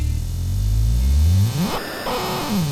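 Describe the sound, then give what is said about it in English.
Synthesizer granular effect as the mod wheel changes the grain size: a buzzing, noisy texture with tones that sweep upward, break off briefly, then glide back down. “So that's with the speed all the way at nothing and the granular size all the way at the top of the mod wheel, and if I bring the mod wheel towards me,”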